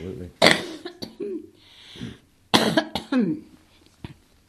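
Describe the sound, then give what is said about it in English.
Two harsh throat clearings a couple of seconds apart, each a short loud burst, with quieter voiced sounds and breaths between and after them. “I'll just do a little clearing of throat first.”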